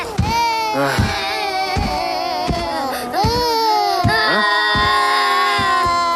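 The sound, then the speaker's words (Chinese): Children cry nonstop in loud, high wailing sobs broken by sharp gasping breaths, with the crying running unbroken through the whole stretch. “怎么有小孩的哭声，还哭个不停，吵得我没办法午睡。”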